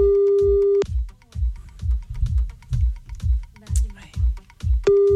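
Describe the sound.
Ringback tone of an outgoing phone call, a steady mid-pitched tone at the start that returns about four seconds later, over a thumping, rhythmic music bed.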